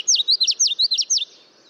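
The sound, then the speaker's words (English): Common yellowthroat warbler song: a bright, high-pitched run of quick, repeated chirping phrases in an even rhythm. It lasts just over a second and then stops, leaving only faint background. “Common yellowthroats are warblers that are skillful at living alongside people, making them a great introduction to the songs and bright colors of the warbler family.”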